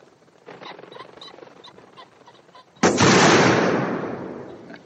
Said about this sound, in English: Roger Moore only shoots one person in this entire movie. It's the sniper in the tree at Drax's estate.